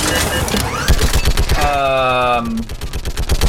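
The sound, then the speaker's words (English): A mounted gun fires in a video game shooting gallery with unlimited ammunition: rapid, loud bursts of automatic gunfire, a high whining tone partway through, and a man talking over the shots. “Shepherd gets on the gun. So now we're in a shooting gallery game.”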